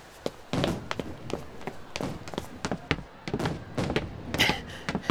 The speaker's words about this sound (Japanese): この音、もしかして花火か？